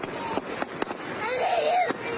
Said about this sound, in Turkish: Şiddetli rüzgara aldırış etmeden düğünde havai fişek atıldı.